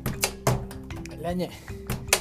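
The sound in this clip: A washing machine lid closes with a few dull thunks and knocks, scattered over about two seconds. Low tonal hums and sounds run between the impacts.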